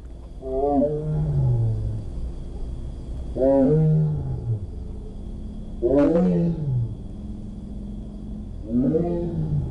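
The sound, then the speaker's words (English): A tiger at Milwaukee County Zoo gives four deep, moaning roars at fairly regular intervals, each call arching up and then sliding down in pitch, over a low steady background hum. “Wisconsin's Milwaukee County Zoo is the only Midwestern zoo to be working with the Pruston Project to record the voices of tigers, and those new recordings are going to sound something like this.”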